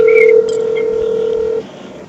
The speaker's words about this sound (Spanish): Ahí va, ahí va, llamando, llamando.